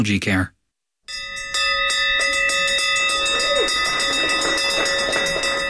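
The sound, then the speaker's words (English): An end-of-treatment bell rung in a new cancer treatment facility. A brief voice and a moment of silence come before a long run of many rapid, bright, ringing strikes that sustain and overlap steadily. “That's the sound of an end-of-treatment bell being rung for the first time at the new 15,000-square-foot treatment facility.”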